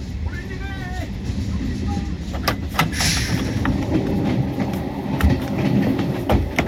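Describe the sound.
A train moves along the rails with a steady low rumble broken by sharp, irregular clacks, and a voice is faintly heard over it.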